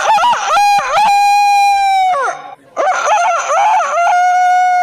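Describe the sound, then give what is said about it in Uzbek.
Rooster crowing loudly in two long, drawn-out calls separated by a brief pause, each with a rising then sustained and falling tone, with no talking. “saratonda esa 70 ta tovuqqa o'z xizmatini ayamaydigan xo'roz ovozi.”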